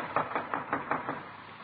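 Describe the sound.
Knocking on the front door of a house: a quick, evenly spaced run of hollow raps, faint and alone, fading out after about a second.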